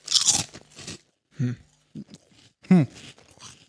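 Loud, crisp crunching as someone chews a vegan ketchup-flavoured snack with a paprika taste, coming in a few separate bursts of bites split by quiet pauses, with no talk.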